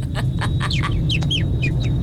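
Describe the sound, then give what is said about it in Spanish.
A person imitates a baby chick with many quick, high peeping chirps, some sliding downward, over a steady low background hum. “Y participando con esta dinámica, yo imito a un pollito.”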